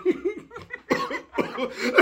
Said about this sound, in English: I can cough too,